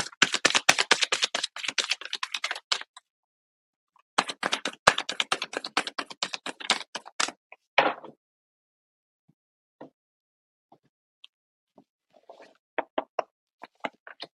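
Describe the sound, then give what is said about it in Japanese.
Advice cards are drawn from a card deck with crisp, rapid clicking and flicking. Two dense bursts of clatter are followed by a few scattered, soft taps, with no talk. “それではちょっと待ってくださいね。アドバイスカードを引いていきましょう。”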